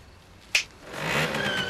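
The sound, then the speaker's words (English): A moped engine revs as it rides up to a gate: a brief sharp click comes first, then a buzzing engine swells in and holds, fairly loud and steady. “burns up to the gate on a moped”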